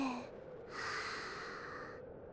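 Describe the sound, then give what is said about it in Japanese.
Slow, deliberate breathing during a deep-breathing exercise: two soft, airy breaths, a short one followed by a longer, steadier one lasting over a second, with no voices. “吸って、吐いて。”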